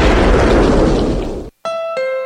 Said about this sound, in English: believe how big of a boom you can make with Boom Boom Billy's monster fireworks